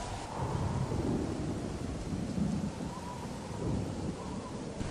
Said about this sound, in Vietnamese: Mưa quá lớn, trút xuống làm cho cô không thể mở mắt được.